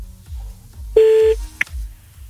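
A telephone tone as a call is dialed: one short, steady beep followed by a brief higher blip, over a low, rhythmic pulsing background.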